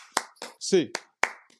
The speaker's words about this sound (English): And just as we always like to do it, and this show with an 8-clap, baby.